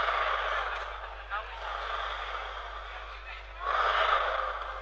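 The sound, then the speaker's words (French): Air rushes through accordion bellows, making a soft breathy whoosh with no musical notes. It rises and falls over several seconds and swells louder near the end. “avec le soufflet de mon accordéon, mon instrument, c'est un instrument quand même qui est bizarre. C'est un instrument qui respire. Vous voulez l'entendre respirer? Ouais, écoutez.”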